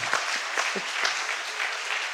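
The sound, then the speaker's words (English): Church audience applauding after baptisms are announced, a dense, steady wash of clapping that holds at an even level from start to end, with a few brief low bursts within it. “seven people who've given their lives to Jesus just recently. It's a beautiful thing. So we've got all this life going on. Yeah, you can applaud that.”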